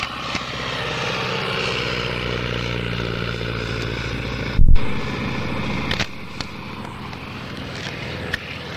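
An aircraft taking off with a loud, steady propeller-engine drone. A sharp burst comes near the middle, then the roar drops slightly and carries on with a few faint clicks.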